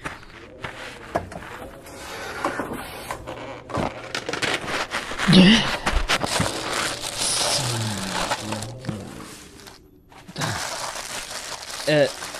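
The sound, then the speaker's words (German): A plastic tarp being handled and crinkling: irregular bursts of crackling and rustling continue for several seconds, with a short quiet gap near the end. “Als erstes braucht man so eine Plastikplane. Hinten im Auto müsste eine liegen.”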